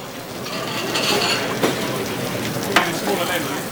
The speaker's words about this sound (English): So that goes in the fryer. Just as that's going in the fryer, we're going to start getting our sauce ready.